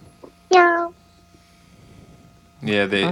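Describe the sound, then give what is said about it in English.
Two meow-like calls attributed to a cheetah, short bright tonal cries separated by a pause of about two seconds, the second rougher and slightly longer than the first. “Cheetahs can't roar. They meow.”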